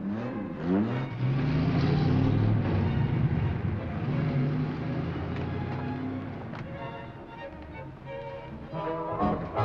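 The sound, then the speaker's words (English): A car driving off, its mid-pitched engine drone swelling early and staying loud and steady throughout, with no voices. “Jack drives off.”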